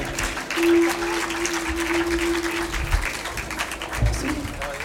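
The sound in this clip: Audience applause, a dense, steady wash of clapping that runs throughout at moderate loudness, with a low sustained tone and a couple of soft thumps beneath it.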